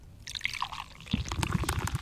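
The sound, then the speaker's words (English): A fruity-smelling drink poured out after a can is cracked open: soft splashing and gurgling liquid that grows busier and louder about halfway through, with no talking. “Here we go. Here's the pour.”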